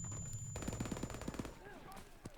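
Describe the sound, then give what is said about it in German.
Rapid automatic gunfire from a gun fired from the hip in a video game: a fast, even burst of many sharp shots lasting about a second, followed by quieter game sounds. “Da kann man über die halbe Map aus der Hüfte schießen. Guckt euch an.”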